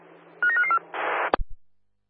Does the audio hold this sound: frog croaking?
no